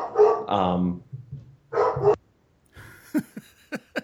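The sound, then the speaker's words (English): A female pet dog barks in the background, giving a few short, sharp barks in quick succession after a stretch of other vocal sounds. “Yep, that's my dog in the background. So hopefully she's not too loud.”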